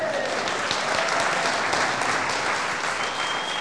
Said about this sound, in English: you don't need to clap.